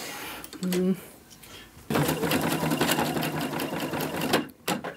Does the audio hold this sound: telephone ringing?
no